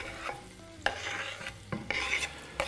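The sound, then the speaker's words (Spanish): Onion sizzles as it is added to a pot of meat stew, a steady frying hiss broken by a few sharper bursts of stirring and clatter, with no talking. “Bueno, vamos a poner la cebolla.”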